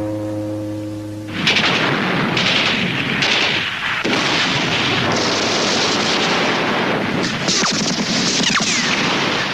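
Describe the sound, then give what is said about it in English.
A Soviet artillery bombardment of a city: after a held low tone in the first second, a loud, continuous roar of booms and blasts rolls on without a break, with many sharper cracks scattered through it. “Soviet bombardment, Zhukov's 3rd Shock Army and his 47th Army erupted into the city streets.”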